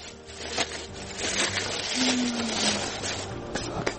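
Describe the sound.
Steady grinding rumble of a village water mill milling wheat into flour, a dense churning noise with a low hum, a few faint knocks, and no voices.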